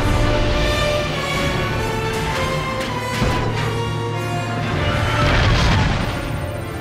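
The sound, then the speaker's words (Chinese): Heavy battle blasts as weapons open fire on an earth dragon: a dense, continuous rumble of booms and crashing bursts that swells louder toward the end. “发现灵魔地龙，正在进入射程范围。 呃， 准备开火！”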